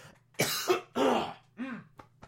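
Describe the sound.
A person's harsh, dry coughing in a few heavy bursts with rough throat-clearing, ending in two short, weaker catches.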